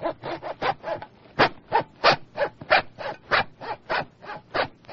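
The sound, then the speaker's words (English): A saw cuts through bone: many steady, rasping back-and-forth strokes, loud and evenly paced, with brief gaps between them. “But it is my very special saw. I have to work for my meals. Cutting through the bone is not easy.”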